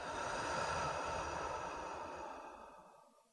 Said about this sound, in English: Take a slow, deep breath in through the nose and out through the mouth.